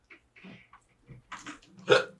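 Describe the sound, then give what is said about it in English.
A single sharp hiccup bursts out loudly near the end, after a few faint, soft sounds. “Hiccups. Oh, I always have that like one random hiccup.”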